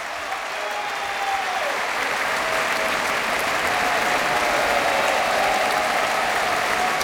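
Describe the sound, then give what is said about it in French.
Enthusiastic concert audience applause at the Philharmonie de Paris following a choral and orchestral performance, a dense, sustained roar of clapping hands that stays loud and even throughout. “Vous l'entendez, le public de la Philharmonie est enthousiaste”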